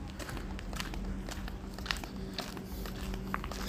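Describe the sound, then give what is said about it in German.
Two plastic water bottles crackle and rub together as someone walks, giving irregular crinkly snaps and scraping over a steady, dull background of footfalls and low rumble, with a few sharper cracks standing out. “Außerdem knackt, wenn ich die ganze Zeit gehe, die Flasche Wasser total. Ich weiß nicht warum, aber wahrscheinlich, weil die ganze Zeit zwei Flaschen aneinander knirschen.”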